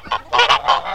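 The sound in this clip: Turkey calls: a quick series of nasal, honking bursts with short gaps between them, fairly loud and without any talk.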